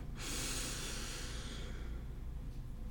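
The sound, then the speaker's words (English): A deep inhale during a guided breathing exercise: a long, soft, airy rush of breath begins just after the start, holds for over a second, then fades out, alone and fairly quiet. “Deep inhale.”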